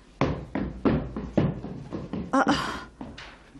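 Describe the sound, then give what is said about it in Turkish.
Knocking on a door: a run of heavy, hollow knocks at a fairly slow, somewhat irregular rhythm, followed near the end by a couple of sharper, brighter hits. “Kim var orada? Kapıyı kim çaldı?”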